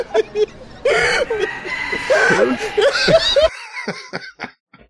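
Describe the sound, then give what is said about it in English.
A rooster crows in a run of loud, harmonic calls lasting a few seconds, then cuts off abruptly into quiet. “Right there. You can hear the real chicken fucking go.”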